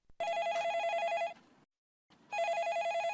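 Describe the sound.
A telephone rings as a listener calls in to a radio call-in show: two long electronic trilling rings separated by a brief silence, with no talk.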